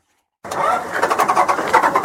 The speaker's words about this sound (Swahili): Dakika chache tu baada ya daraja kukabidhiwa, gari lilokuwa limejaa vyakula lilivuka daraja jipya la kisasa juu ya mto Bienadeu kati ya vijiji ya Msenene na Lukanga likielekea Butembo.